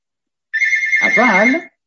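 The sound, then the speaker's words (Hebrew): A telephone rings and interrupts a spoken talk: a loud, steady electronic ringtone with a fluttering, trilling edge. It lasts about a second, and a voice starts talking over it partway through. “אני מבקש סליחה, פשוט יש טלפון טרדני פה, סליחה.”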